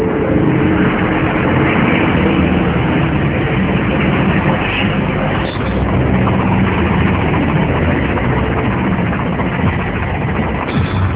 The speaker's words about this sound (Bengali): বাইরে মিলিটারিদের গাড়ি।